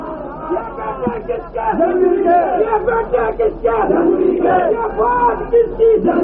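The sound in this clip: A crowd chants a slogan in unison at a rally. Loud massed voices carry a rhythmic call that continues almost without a break through the whole stretch.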